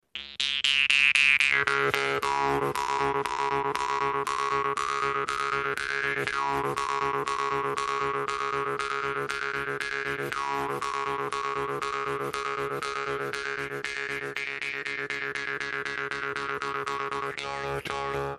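A Jew's harp is played steadily, its twanging pulse riding a constant buzzy drone while the overtones rise and fall in a lilting melody, with no voices.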